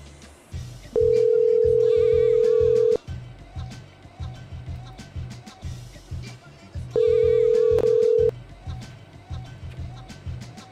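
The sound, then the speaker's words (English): Telephone ringing on a call line, heard as two long, steady buzzing tones, the first about two seconds and the second shorter, over a busy, rhythmic background. “Ring again. Keep ringing. Keep ringing her.”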